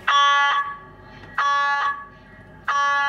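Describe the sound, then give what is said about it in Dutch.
An MRI scanner starts a scan with three loud, buzzing harmonic tones of about half a second each. They repeat at a steady interval, with quieter gaps between them. “Gaan we nu eerst de scan starten?”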